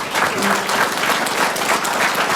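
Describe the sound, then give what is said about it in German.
Applause from an audience at a ceremony where certificates are being handed out: a loud, dense wash of clapping, steady and unbroken throughout. “Vielen, vielen Dank. Das ist euer Applaus nochmal, eure Urkunden.”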